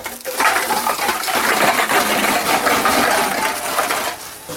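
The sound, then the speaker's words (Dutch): Loud clatter of cans and plastic bottles pouring into a bulk deposit return machine that counts them and crushes the cans and flattens the plastic. A dense, continuous metallic rattle runs for about four seconds before easing off. “Je drukt op de knop, de laag gaat open, je keepert alles erin. En dan gaat hij tellen en dat wordt erachter gelijk verwerkt. Dus de blikjes worden direct plat gemaakt, de plastic wordt gelijk geplet.”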